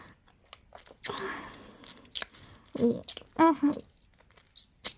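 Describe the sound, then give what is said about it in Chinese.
Moist licking and slurping as an ice pop with a creamy filling is eaten in the heat, with a few irregular squishy bites and sucking noises, mostly soft and separated by short quiet stretches. “我在吃冰棍，现在好热。”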